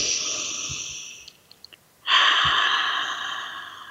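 Deep breathing during a guided breathing exercise: a long, airy breath, a brief quiet pause, then a second, louder and longer rush of breath. No talking is heard.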